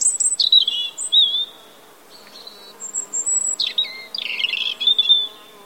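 A European robin singing high, thin warbling phrases with rapid trills and glides, delivered in bursts separated by short pauses.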